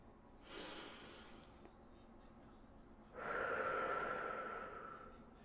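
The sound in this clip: A deep breath, a soft airy inhale followed after a pause by a longer, stronger exhale, both faint and alone without speech.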